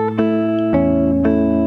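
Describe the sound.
Fingerpicked acoustic guitar playing a picking pattern on an A chord, with three clear plucked attacks whose notes ring on and overlap into a sustained chord.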